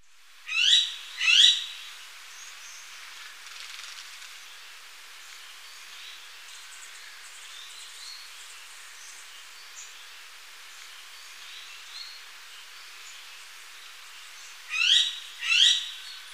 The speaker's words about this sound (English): crimson-mantled woodpecker.